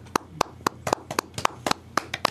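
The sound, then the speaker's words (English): Polite golf claps: light, scattered hand claps at a slow, irregular pace, fairly faint and unhurried. “All right. Golf claps can stop now.”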